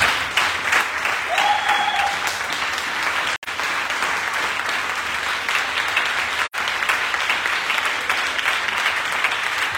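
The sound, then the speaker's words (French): Sustained applause from a church audience acclaiming an apostle, dense steady clapping that fills the whole clip at an even loudness, broken only by two very brief gaps. “Je voudrais que tu t'associes à moi encore pour acclamer la vie de l'apôtre Louis.”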